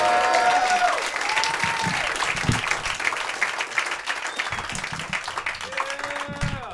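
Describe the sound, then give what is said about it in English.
An audience at a comedy show applauds comedian Eddie Bravo with dense, steady clapping that holds at an even level throughout, with a few voices calling out over it. “Guys, give it up for Eddie Bravo.”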